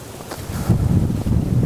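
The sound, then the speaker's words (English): Strong wind blasts straight into an outdoor microphone, making a loud, continuous low rumble with rough buffeting gusts and no voices. “Wind is just ridiculous right now.”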